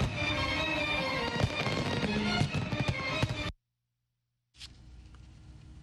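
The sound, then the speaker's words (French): Fireworks crackle and pop in dense, loud bursts at a Fourth of July celebration with a big concert in front of Congress in Washington. They go on for about three and a half seconds, stop into silence, then fainter crackling returns. “Célébration 4 juillet a été fini comme d'habitude avec un gros concert devant Congrès avec feu d'artifice qui t'a tiré en l'air dans le ciel capital là.”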